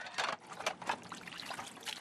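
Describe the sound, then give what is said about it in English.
Water trickling and splashing as dishes are washed in a shack built from rusty tin siding. It comes in a few uneven, hissing bursts at moderate volume, with no talk. “is washing dishes.”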